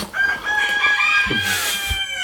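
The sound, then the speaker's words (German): Chickens in a backyard flock: a rooster lets out a long, loud, harmonic crow while lower hens cluck and murmur beneath it, ending with a few short clucks. “So entstehen Hühnerzuchten, indem man die Viecher einfach mal machen lässt. Darum auch die Hintergrundgeräusche, weil sie sind gerne im Vordergrund.”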